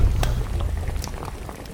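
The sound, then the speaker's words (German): Bubbling and crackling from cooking at an old open fireplace, a steady low rumble scattered with short pops and hisses that eases slightly toward the end. “Da ist gerade jemand am Kochen. Gang rechts zu dieser Feuerstelle.”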